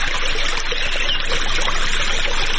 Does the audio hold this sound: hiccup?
no

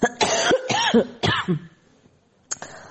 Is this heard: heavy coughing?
yes

